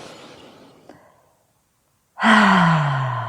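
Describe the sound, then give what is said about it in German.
A deep breath in and out during a guided tapping relaxation exercise: a soft, airy inhale fades to silence, then a loud, voiced sighing exhale slowly falls in pitch. “Atme dabei tief ein und aus.”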